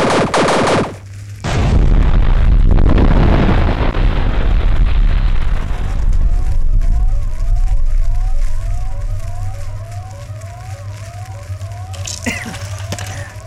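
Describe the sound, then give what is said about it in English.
A ship's weapon fires at a vessel whose engines and shields have failed: a long, loud roaring blast after a brief tone, followed by a run of rapid, repeating chirping pulses. “He is firing. Target locked. Firing.”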